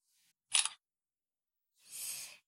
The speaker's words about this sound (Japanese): じゃあ、撮ります。